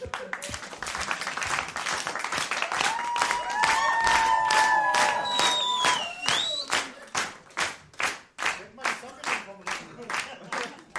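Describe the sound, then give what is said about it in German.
An audience claps, first as a thick, lively burst with high calls or whistles over it, then settles into a steady, even beat of clear rhythmic claps in time. “Können wir mal im Takt klatschen,”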